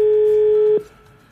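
A telephone tone sounds as a call is dialed and waits for an answer: one steady, mid-pitched tone with harmonics rings loud and alone, then cuts off abruptly, leaving faint background noise.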